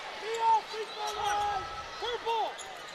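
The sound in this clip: A basketball is dribbled during a girls' basketball game, with soft repeated bounces beneath a commentator's ongoing talk and squeaky court sounds.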